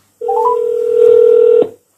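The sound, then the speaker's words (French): Telephone keypad tones as a number is dialed: a few brief stepped tones open into one steady, clear electronic tone lasting about a second and a half, fairly loud and alone, then cutting off. “Ça numérote.”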